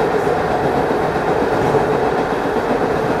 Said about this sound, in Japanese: ご乗車ありがとうございます。三鷹行きでございます。